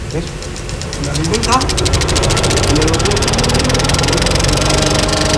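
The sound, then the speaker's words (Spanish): A film projector starting up with its cooling fans and lamp: a loud mechanical whir and hum that spins up in the first second or so, then settles into a rapid, even clatter that runs on continuously. “Vámonos por marcha, los ventiladores. Acércate para acá. Ahora arrancamos la lámpara. Y ahora ya podemos proyectar, arrancar, está todo metido.”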